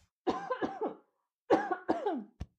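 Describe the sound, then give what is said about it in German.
A person coughs after choking on their own saliva, with two harsh bursts of several coughs each separated by a short pause, then a brief sharp sound at the end. “Entschuldigung, jetzt habe ich mich an meiner eigenen Spucke verschluckt.”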